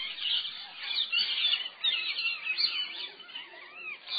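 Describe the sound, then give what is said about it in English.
Parrots calling from a hilltop, a dense, continuous chatter of many high, shrill calls that overlap without pause at a fairly steady loudness. “No, the parrots are wondering about us.”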